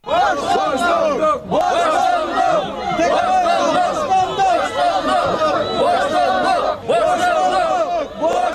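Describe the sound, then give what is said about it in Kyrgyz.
A crowd of protesters at a rally in Bishkek, gathered outside the security service building in support of jailed politician Ömürbek Tekebaev, shouts and chants loudly and continuously, dipping only briefly twice before swelling again. “Бишкекте Өмүрбек Текебаевди колдоо митинг улантылды. Атамекен фракциясынын абактагы лидери Өмүрбек Текебаевга колдоо көрсөтүлдү. Бүгүн кайрадан УКМК имараты алдына жыйналды.”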